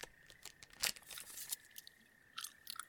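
Someone chews a protein bar, with many faint, crisp crunching bites in an uneven rhythm and short pauses between them.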